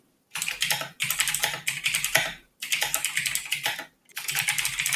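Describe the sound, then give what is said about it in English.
Fast clattering keystrokes on a computer keyboard come in three dense bursts, separated by brief silences, loud and crisp with no talking. “Are you writing a novel or? No, just. Clackety, clackety, clackety, clack. Clackety, clack.”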